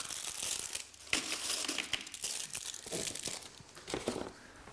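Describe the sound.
Crinkling and tearing packaging as animals unwrap packaged fruit to pull the fruit out. A continuous busy crackle is punctuated by sharp crunches and rips, with no voices.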